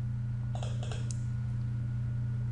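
Mouse clicks as someone clicks through settings and power menus to shut down a Windows Server 2012 Hyper-V machine: a few quick, faint clicks over a steady electrical hum.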